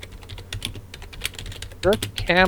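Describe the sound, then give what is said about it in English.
Typing a search on a computer keyboard: rapid, uneven key clicks run throughout, and a voice briefly speaks over the last part. “if I just type Kirk Cameron banana, I wonder if I get the video immediately.”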